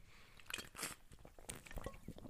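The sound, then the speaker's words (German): A small sip of water: quiet wet mouth clicks and smacks, brief and soft, scattered over a couple of seconds with no talk. “Jetzt was trinken. Kleinen Schluck.”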